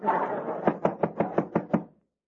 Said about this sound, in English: You want to answer the door, Lou, or not?